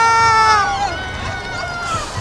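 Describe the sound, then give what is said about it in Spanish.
Crowd shouting and cheering in a packed street as the Pope arrives, with high, sustained shouts at the start fading into loud, continuous crowd babble. “Mira, ya gritan, ya se le ve.”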